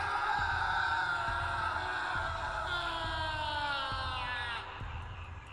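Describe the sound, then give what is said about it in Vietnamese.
A terrified scream, long, high and wavering, rises over steady low thumps and fades near the end. “chỉ kịp hét lên một tiếng kinh hãi”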